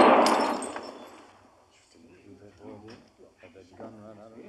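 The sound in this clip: A single loud gunshot bursts out at the start and rings off in a long fading tail over about a second and a half, after which talking continues.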